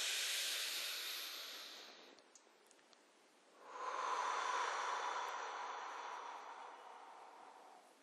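Someone takes a deep breath: a steady, breathy inhale lasting about two seconds, a short quiet pause, then a longer, airy exhale that slowly fades.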